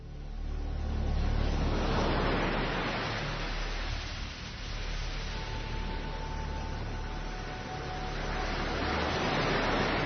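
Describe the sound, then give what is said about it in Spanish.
Ocean waves off the Canary Islands form a continuous, dull roar of surf that swells and eases in slow surges, with no voices. “Pues ahí estaba la noticia, y estas olas que nos pone Carlos Nicolás”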